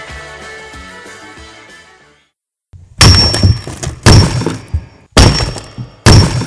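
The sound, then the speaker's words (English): Rock cracking and splitting: four loud, heavy cracks, each with a short rumbling decay, come after a quieter tonal passage and a brief silence. “Yes, that's the sound of rock cracking, and it continues to crack.”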